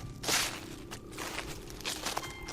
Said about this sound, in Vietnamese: sững lại khi nghe có tiếng bước chân người đang tiến tới